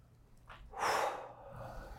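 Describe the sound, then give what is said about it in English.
A person takes a single deep breath in, a soft airy inhale that swells and fades in under a second against quiet background noise. “Take a deep breath in.”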